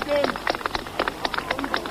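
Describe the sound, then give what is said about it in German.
Demonstrators clapping at the Brandenburg Gate in Berlin in 1953: a dense, irregular patter of many sharp hand claps that continues throughout at a fairly even level. “Die Demonstranten klatschen, sie schwenken ihre Hüte.”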